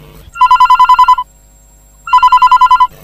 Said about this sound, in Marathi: Sir आपल्याला एक phone येतोय, आपण फोन कडे वळूया.